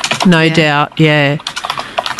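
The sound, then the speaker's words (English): Keyboard typing clicks at the start and through the last second, broken by two loud harmonic tone bursts in between. “you're having a type there. Yeah, it's a bit of ASMR. Yeah, a bit of ASMR.”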